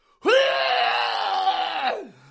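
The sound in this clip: A man's voice imitates someone screaming into a toilet at a party: a single strained, roaring yell held steady for about two seconds, then cut off with a short downward drop.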